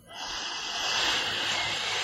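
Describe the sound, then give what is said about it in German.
A single long nasal inhale through the right nostril during alternate-nostril breathing: a steady, airy hiss that swells slightly and holds for about two seconds, quiet and alone. “Jetzt atme ich rechts ein”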